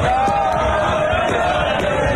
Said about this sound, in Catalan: És el so de les celebracions per la victòria d'Espanya al Mundial per segona vegada a la seva història. Aquest so és el de les 4 de la matinada a la plaça de Catalunya de Barcelona.